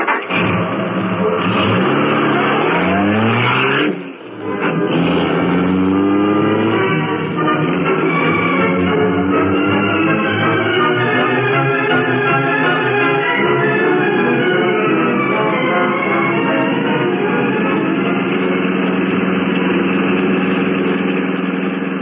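A car engine drones steadily as the car is driven, a rough mid-pitched running sound with a brief drop in level early on, then a smooth, sustained, loud hum with no voices.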